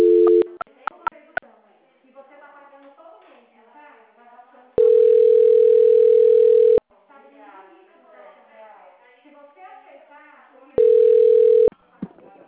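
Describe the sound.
Telephone tones on a dropped call: a few short beeps at the start, then two long steady single-pitch tones, the first lasting about two seconds and a shorter later one. A person talks between the tones.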